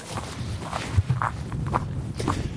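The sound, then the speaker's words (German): Footsteps walking on the Brocken mountain, a few soft, low thuds of shoes on the ground in a loose, unhurried rhythm with no talking. “So, wir gehen jetzt zum zweiten Multi hier auf dem Brocken.”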